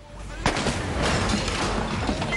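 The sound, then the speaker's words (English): Gunfire from a gun fired through a small hatch in a door: one sharp, loud crack followed by a dense, sustained wash of noise. “Seeing Frank's face through the small hatch in the door, Silas opens fire.”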